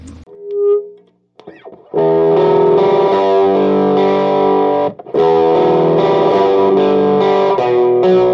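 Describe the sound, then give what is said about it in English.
Electric guitar through an amplifier with tremolo and spring reverb from a constant-current-driven reverb tank. A few soft notes open, then loud, sustained, distorted chords ring with a pulsing swell, broken by one brief pause. “This has the same tremolo. It has a little bit different reverb on it.”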